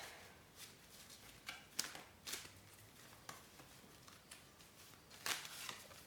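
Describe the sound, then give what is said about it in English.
Soft rustling riffles of a tarot deck being shuffled to draw a card during a new moon ritual, an old, long-used deck; faint, irregular papery bursts over quiet hiss, with no talking. “And I'm using the exact same tarot deck I used all those years ago. All right, let's find a card.”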